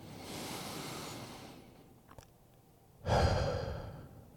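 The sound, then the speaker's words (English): A group of people breathes together: a long, airy inhale fades to near quiet, then a louder shared exhale rushes out near the end. “Would you guys take a breath with me?”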